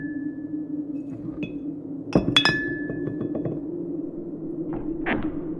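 Sharp clattering, clinking knocks in the dark night: a quick cluster of hard hits near the middle and one more toward the end, each standing out over a steady low hum.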